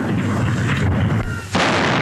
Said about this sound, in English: At the tower, the salute is fired by the Honourable Artillery Company.